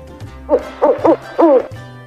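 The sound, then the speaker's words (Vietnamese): A large bird gives a plaintive, cooing, gurgling call: a few short hooting notes in quick succession, each wavering in pitch, loud and alone. “Cửu Phong bị sờ soạn trong chốc lát, đột nhiên phát ra tiếng ục ục đầy tủi thân.”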